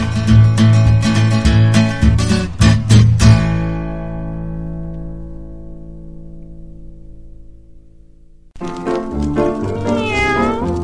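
Cats meowing over music: a run of loud, rhythmic meow calls, then a long sustained harmonic tone that slowly fades, followed by a fresh burst of wavering, tonal meows.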